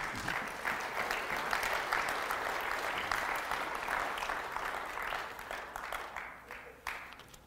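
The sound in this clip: A church audience applauds to welcome a guest speaker after a prayer. The clapping is dense and sustained and tapers off toward the end, with a few louder claps standing out.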